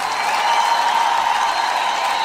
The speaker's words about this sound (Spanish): ¡Aplausos, Ángela!